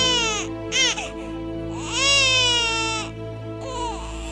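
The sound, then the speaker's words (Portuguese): A newborn baby boy cries just after birth. Several loud wailing cries with wavering pitch are broken by short pauses, and the longest cry comes in the middle. “Foi quando eu escutei o chorinho do meu filho.”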